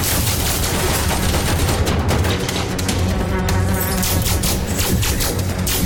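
Dense, relentless gunfire from covering fire in a video game battle, loud and unbroken, with rapid bursts layered thickly into a constant rattling roar.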